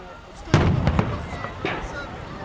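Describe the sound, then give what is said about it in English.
Stun grenades go off during clashes between settlers and police in Hebron: a few sharp, loud bangs, the first with a crackling burst, spaced irregularly over a rumbling background. “Some stun grenades are going off.”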